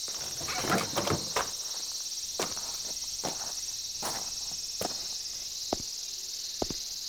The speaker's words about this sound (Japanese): セミの声しか聞こえへん。